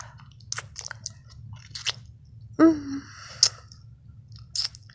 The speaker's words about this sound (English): Licking all my pussy juices on my fingers.